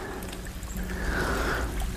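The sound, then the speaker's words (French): Water trickling in a small stream, a soft, steady babbling hiss that stays even and faint throughout with no voices. “j'ai regagné le petit ruisseau que nous avons traversé tout à l'heure, toujours en mode stéréo.”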